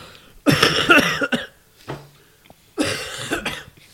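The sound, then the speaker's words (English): Heavy, harsh coughing from someone with a bad cough: a loud, rasping fit, a couple of fainter hacks, then another strong fit, with no talk in between. “Sorry, I have a bad cough.”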